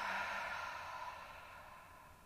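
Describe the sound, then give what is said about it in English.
A deep, full exhale out through the mouth during a guided relaxation breathing exercise, heard as a steady, airy rush of breath that fades slowly over a couple of seconds. “We're going to take a deep inhale in through our nose. Full exhale out of your mouth.”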